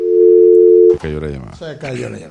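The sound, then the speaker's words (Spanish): A steady, single-pitched telephone tone sounds after a dropped call. It holds loud for about a second and then cuts off as a person starts talking. “Se cayó la llamada.”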